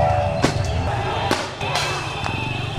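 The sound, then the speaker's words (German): Police fire tear gas grenades into a crowd of protesters in Nairobi, Kenya, giving several sharp, cracking bangs spaced irregularly amid voices and crowd noise. “Plötzlich rasen erneut Pickup-Trucks der Polizei heran. Sie fahren mit hoher Geschwindigkeit auf die Menschen zu und schießen Tränengasgranaten in die Menge.”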